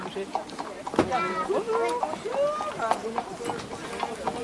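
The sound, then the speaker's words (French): Clip-clop of horse hooves pulling a carriage with about fifteen seats, brief knocking steps under steady talk from several people. “Quand le bruit des sabots se fait entendre, les yeux s'illuminent.”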